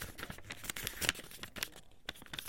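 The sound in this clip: A square sheet of paper being folded in half, giving a run of soft crinkling rustles and light creases, dry and fairly faint, with no voices.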